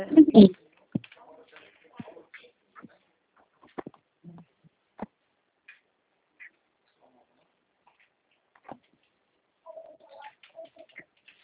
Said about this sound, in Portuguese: aí você vai digitar seu CNPJ.